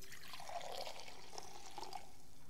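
Wine being poured into a cup, a faint, soft trickle of liquid with slight gurgling, steady and quiet throughout.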